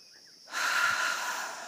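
A deep breath taken together during a prayer. Faint quiet gives way to a single, steady, breathy rush of air that swells and then holds with little change to the end.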